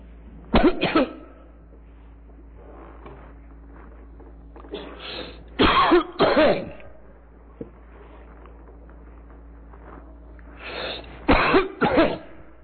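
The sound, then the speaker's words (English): A person coughs insistently and deliberately, with harsh coughs coming in recurring bursts of two or three separated by quiet pauses, over a faint low hum. “an insistent cough. Not an uninterrupted cough, but a constantly reoccurring cough.”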